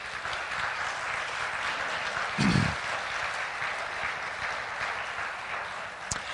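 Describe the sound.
A church audience applauds to welcome back a member returning after a long absence for cancer treatment. The clapping is steady and moderate, lasting the whole stretch.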